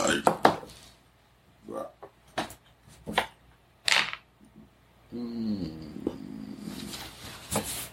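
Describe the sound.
Dice rolled for a bluff check in a Cthulhu D20 tabletop role-playing game: a quick cluster of sharp clicks, then scattered lighter taps, before a voice starts talking.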